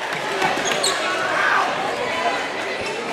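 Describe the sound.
A basketball bounces on the court during a women's game, a few dull thuds half-buried in steady crowd noise and voices.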